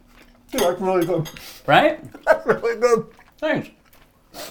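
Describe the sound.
Cutlery clinks and scrapes against a plate while cooked meat with skin is cut into, partly masked by people talking over it.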